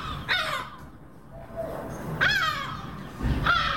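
Harsh, squawking bird cries as gulls chase a southern ground hornbill on a house roof at night. Three loud raspy calls stand out, with a faint lower call between them, over steady background noise.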